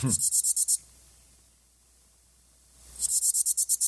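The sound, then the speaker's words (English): A broad-winged bush katydid sings in rapid trains of short, high, raspy pulses: one burst, about two seconds of near silence, then another burst. “That's the broad-winged bush katydid that I understand.”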